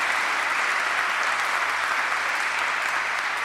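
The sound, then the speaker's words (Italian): An audience applauding, dense even clapping that holds steady from start to finish with no break. “Un gesto di affetto, facciamo anche un applauso, sì?”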